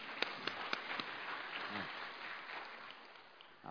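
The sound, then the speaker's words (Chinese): Faint audience applause rises as a soft, even wash of many hands clapping, opening with a few sharper individual claps before settling into a steady, muffled patter. “谢谢你们，我们给他掌声好不好？”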